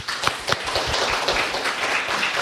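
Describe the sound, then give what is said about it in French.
Audience applause for a performer after a rhymed spoken text at a show: dense, continuous clapping with a few sharper claps standing out early on, steady and moderately loud throughout with no talking. “On peut la réapplaudir.”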